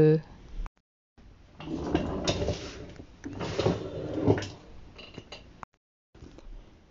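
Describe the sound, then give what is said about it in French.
Someone moving about on a chair makes creaks, scrapes and rustles in a few bursts of varying loudness, separated by short silent gaps. “bouger sur sa chaise.”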